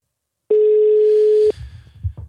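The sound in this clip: A telephone ringing tone sounds while someone places a call. It is one steady, mid-pitched electronic tone lasting about a second, then a faint low rumble.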